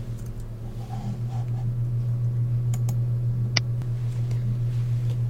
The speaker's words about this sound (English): Go ahead and click on the title of the link.